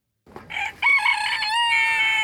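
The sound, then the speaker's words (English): A rooster crowing on a farm in Pegram: a brief opening call, then a loud, drawn-out harmonic crow that holds steady to the end, with no talking. “You might have heard that roosters crow at the break of dawn. Out on Hennessy Farm in Pegram, it's an all-day thing. Sometimes they just do it.”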